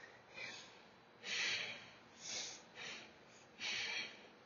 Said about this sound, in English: I'm inhaling and I'm exhaling.